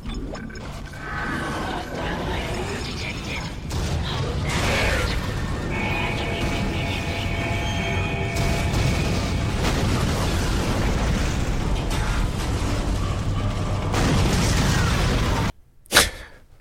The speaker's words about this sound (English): you crawl up in your ship and try to start it, and the fucker just blows up. Hull damage detected.